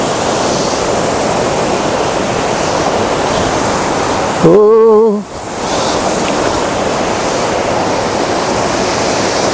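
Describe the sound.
Fast-flowing, shallow stream water rushes over rocks in a loud, steady wash of noise, broken midway by a brief exclaimed voice.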